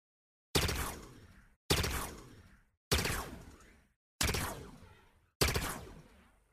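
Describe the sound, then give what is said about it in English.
A bolt shot sidearm fires five shots in a video game. Each shot has a sharp loud onset and a decaying tail. The shots are evenly spaced about a second apart, with no voices. “I'm waiting for that bolt shot sound. Okay, and this is how the actual bolt shot sounds.”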